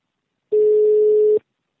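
A phone call being placed rings out with a single steady, mid-pitched electronic ringback tone lasting just under a second, heard alone against silence.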